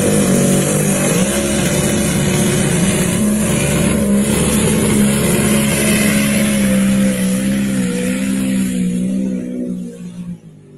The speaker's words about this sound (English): that's a cool looking tractor